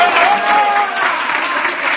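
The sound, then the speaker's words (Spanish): Loud applause from the Sevilla football squad after their coach's Christmas team talk: a thick, continuous clatter of many hands clapping, unbroken from start to finish. “aplauso, que os lo merecéis”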